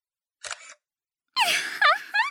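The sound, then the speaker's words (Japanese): A camera shutter clicks once as a photo is taken, a short crisp burst, followed by a woman's voice speaking. “ついでに写真も撮るかな”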